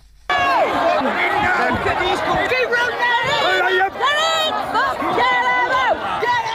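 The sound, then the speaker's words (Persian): Rioters attacking a migrant hotel in Britain form a loud crowd of overlapping shouting and yelling voices. The tumult is dense and continuous, with individual cries rising out of the noise. “این صدای حمله کنندگان به یک هتل مخصوص مهاجران در بریتانیا است.”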